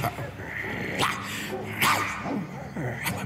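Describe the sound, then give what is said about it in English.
Dogs barking, with a few sharp barks spaced irregularly over a low, steady background. “only to wake up to the sound of dogs barking”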